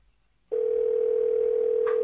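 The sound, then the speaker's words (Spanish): A steady, continuous telephone dial tone sounds while a call is being placed to the IMF. It starts abruptly after a brief silence and holds one unbroken pitch, loud and alone, with a faint extra blip near the end. “Ahí sí estamos llamando al FMI. Esto es de verdad, ¿eh?”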